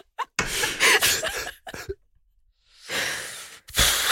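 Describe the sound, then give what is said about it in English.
A person takes a really deep breath, heard as two long, breathy rushes of air separated by a quiet pause, with a few short puffs and clicks at the start and a final burst at the end. “Squash just takes a really deep breath.”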